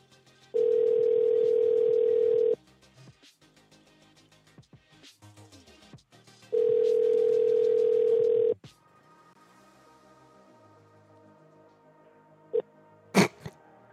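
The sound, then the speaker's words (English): Ringback tone of an unanswered phone call: two long, steady, mid-pitched rings of about two seconds each, separated by a few seconds of near silence, followed by a couple of brief faint clicks. “Why is no one picking? Call a couple more times because that's definitely her.”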